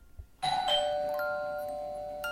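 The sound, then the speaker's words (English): A doorbell rings once with a two-note chime that strikes sharply after a brief pause and then rings on, its tones slowly fading, with no voices. “I stood back, and in the living room, all of a sudden, the doorbell rang.”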